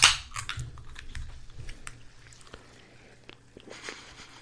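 A can of apple-flavored, zero-sugar drink cracks open with one sharp pop and a brief burst of hiss. A few faint clicks and small crackles follow as it settles.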